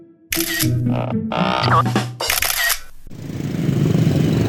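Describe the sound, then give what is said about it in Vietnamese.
Several bursts of camera shutter clicking as photos are taken, each lasting under a second with short pauses between them, then a steady hiss to the end. “Đấy cô chụp đi Chụp kỹ vào nào Chụp chụp chưa”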